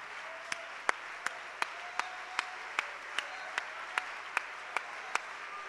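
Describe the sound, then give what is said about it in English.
Rhythmic hand clapping from an audience praising at a Monday night church service, quiet and sharp, a steady even beat of about a dozen single claps in unison. “Let's give Jesus a great big hand clap of praise.”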